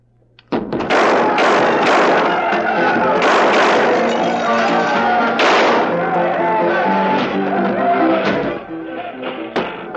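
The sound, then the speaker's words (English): Bar brawl in a tavern: shouting voices mixed with repeated thuds, bangs and crashes, loud and chaotic throughout. “That's quite a brawl. A convenient brawl.”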